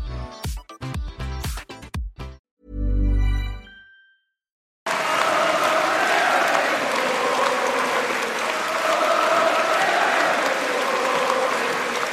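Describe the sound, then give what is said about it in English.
Applause at the Labour Party conference in Brighton: after a few short musical tones and a brief silence, loud, dense clapping from a large crowd begins abruptly and continues steadily to the end. “The sound of Labour conference in Brighton there.”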